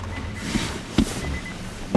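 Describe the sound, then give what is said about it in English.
A bus arriving and its doors opening, heard as a steady mechanical hum with a thin whine and a few sharp clunks. “here's the bus”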